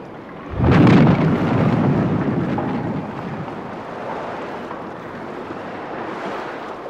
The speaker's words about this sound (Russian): Придется выбросить шхуну на отмель. Всем держаться! Сейчас ударит!